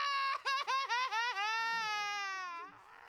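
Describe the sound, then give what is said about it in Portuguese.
A cartoon baby cries: a few short, hiccuping sobs give way to a long, high, sustained wail that slowly fades out. “Não chora, não. Para. Tá tudo bem.”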